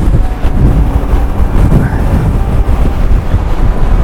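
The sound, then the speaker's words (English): Strong wind buffets a microphone outdoors among hills, a loud, continuous low roar with gusty surges and dips throughout and no voices. “okay, listen, I'm going to stop recording because this wind is too much and I can barely hear myself.”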